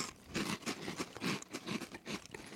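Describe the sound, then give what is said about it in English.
Crunchy chewing of a light, airy bacon-flavoured corn snack, less dense than a typical corn chip: a faint, rhythmic run of many soft crunches and bites with no talk. “It's sort of like a light Frito. Not as dense. It tastes like corn nuts while you're eating it.”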